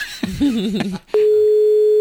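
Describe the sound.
A telephone tone sounds while a number is being dialled on a call: one steady, unbroken mid-pitched hum that holds for about a second at the end, after some brief wavering sounds.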